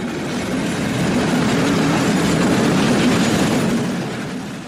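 A train pulling out of a main railway station, with a dense, steady rumble and wheel noise that swells slightly and then eases off toward the end.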